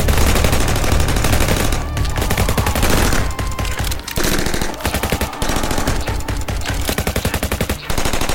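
A loud, sustained volley of gunfire as soldiers open fire on emus: many rapid shots in dense bursts, broken by a few short pauses.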